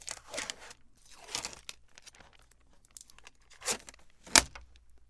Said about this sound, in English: Here's tape number two. Sticking it on the table here in Studio 2A. All right, so now I just rip these things off at the same time. Rip them off and try to bring them together.